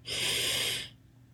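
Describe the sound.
A single deep breath taken during a guided mindfulness breathing exercise, a steady airy hiss lasting under a second before it fades away into quiet.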